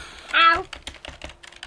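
A computer keyboard rattling as an email is typed: rapid, uneven clicking keystrokes that run steadily throughout, light and quick.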